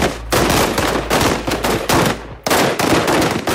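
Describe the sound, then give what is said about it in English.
A police SWAT team fires M16 machine guns at targets in rapid, loud, continuous bursts of many shots, with a short break partway through before the firing resumes. “Here's their SWAT team practicing shooting down targets with their M16 machine guns.”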